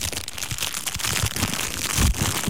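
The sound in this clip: Crinkling paper or plastic packaging of artisanal cookies, a continuous crackly rustle full of tiny snaps, steady and fairly loud throughout with no voices.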